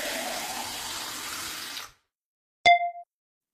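A kitchen tap runs as hands are washed, a steady stream of water for about two seconds that then stops. After a short silence comes a single bright, ringing ding.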